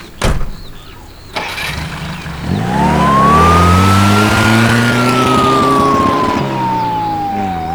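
A car engine starts after a couple of sharp knocks, then revs into a loud droning whine that climbs and slowly falls as the car drives away.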